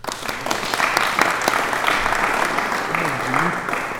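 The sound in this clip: Audience applause welcomes a two-person panel at a meeting: dense, steady clapping across the whole stretch, with a voice briefly audible beneath it.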